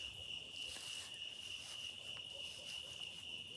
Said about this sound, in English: It's just starting to cool off. You can hear the insects.